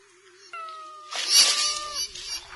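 A cat meows in an autumn garden: a drawn-out tonal cry, then a louder, harsher yowl, and a few fainter cries trailing after.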